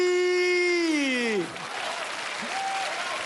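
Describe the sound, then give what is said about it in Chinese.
Applause from an audience at a live stage performance, breaking out right after a long sung note slides downward and ends, then continuing as steady, moderate clapping to the end. “又来了又来了，您各位都拍不上了，还鼓掌的？”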